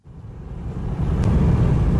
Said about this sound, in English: On the single bridge that connects Crimea to the Russian mainland, traffic stretches for kilometres as cars try to leave the peninsula.